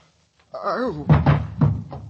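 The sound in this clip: Heavy pounding by police on a door: a voice, then four loud thuds in an uneven rhythm.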